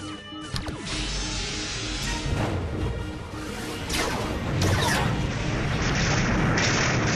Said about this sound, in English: Phaser fire was reflective. We scored a direct hit, and it came right back at us.